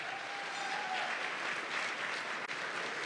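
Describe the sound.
Audience applause greets a 1998 Radio Hall of Fame inductee, a dense, steady wash of clapping at even loudness from start to finish, with no voices over it.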